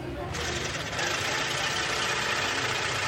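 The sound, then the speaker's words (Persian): Sewing machines whir in a tailoring workshop where several women work at the machines, giving a dense, continuous mechanical hum that holds steady throughout. “کارگاه خیاطی که چند تا زن پشت چرخ کار میکنن.”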